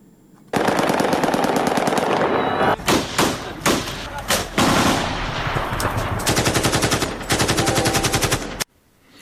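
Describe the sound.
Celebratory aerial gunfire in Afghanistan after a cricket victory: loud, rapid automatic bursts and sharp single shots crackle almost continuously, with long rattling volleys broken by brief gaps before an abrupt stop.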